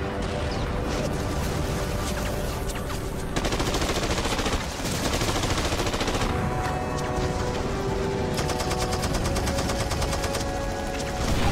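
Gunfire on a battlefield as troops come under attack: a loud, continuous barrage of rapid automatic bursts and many overlapping shots with no pause.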